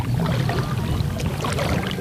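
A wooden canoe paddle dips into smooth, glassy water in Mexico City, making a continuous soft swishing and gurgling without clearly separated strokes.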